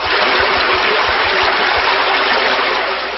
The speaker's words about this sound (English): Foe Expunge used Drench.